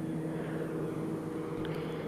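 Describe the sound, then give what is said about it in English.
An airplane flying overhead produces a steady, broad roar with a low rumbling hum, holding a constant level throughout with no other sounds standing out. “Okay, that's a plane for you. Hello, people. I hope you reach your destination safely.”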